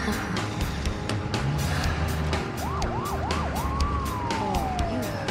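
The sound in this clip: A police car siren sounds as a patrol car pulls a vehicle over on the road: a few rapid rising-and-falling yelps, then one long wail sliding steadily downward, over constant road and engine rumble.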